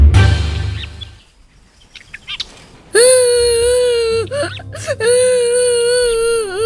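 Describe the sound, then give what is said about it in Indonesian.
A child cries after being bullied, with some quieter sounds first, then a loud, wavering, tonal wail that breaks off briefly and resumes, sustained and sobbing. “Loh, Nak? Kenapa kau menangis?”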